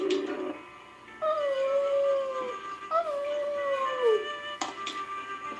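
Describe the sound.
Wolf howling: two long, sustained howls, each gliding downward in pitch, with a short yelp-like note before them and a brief sharp sound near the end.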